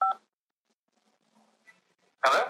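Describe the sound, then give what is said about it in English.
A single short telephone keypad tone, pressed as the digit 5 to accept a call from a prison phone system, sounds at the start. Near silence follows, then a loud burst of static-like noise. “To decline the call or to accept, dial 5 now.”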